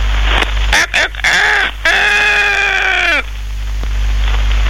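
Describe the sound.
A rooster crows, heard as a long harmonic call that holds steady and then drops at the end, with a shorter call just before it.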